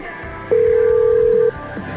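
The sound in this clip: A single steady telephone tone marks a live call being placed: one clear, mid-pitched beep held for about a second, then cutting off over a faint background hum.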